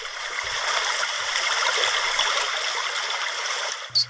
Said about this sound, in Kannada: ಓಹೋ ಕಪ್ಪೆ ಎಷ್ಟು ಚಂದ ನದಿಯೊಳಗ ಈಜಲಿಕತ್ತೆದ.